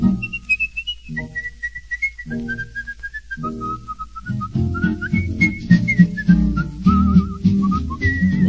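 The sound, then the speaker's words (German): Someone whistles a melody in clear, high, wavering notes, alone at first in short phrases, then over a swing-style band accompaniment that enters partway through and keeps a bouncing rhythm. “Singen tut man überall, das ist nicht so schwer. Doch erreicht in jedem Fall man durchs Pfeifen noch viel mehr.”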